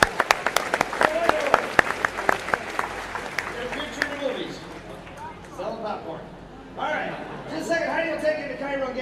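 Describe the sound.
Audience applause for a performer taking a bow: dense, loud clapping that thins out after a few seconds as voices call out and talk over it.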